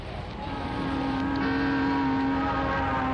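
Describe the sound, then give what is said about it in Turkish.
Steady engine drone of an approaching bus, a low rumbling hum with a few sustained tonal lines that swells slightly at the start and then holds level. “otobüs geliyor”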